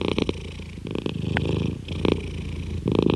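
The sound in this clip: Purring from a male cat sitting on someone's lap: a steady, rough, rhythmic rumble with pulsing breaths that swell and ease throughout, heard alone without any talk.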